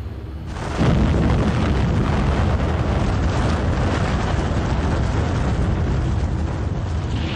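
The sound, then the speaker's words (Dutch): An atomic bomb dropped from an American airplane explodes over Hiroshima: after a brief quiet start, a sudden blast gives way to a dense, loud, steady roaring rumble that holds unbroken to the end. “A short time ago, an American airplane dropped one bomb on Hiroshima and destroyed its usefulness to the enemy. That bomb has more power than 20,000 tons of TNT.”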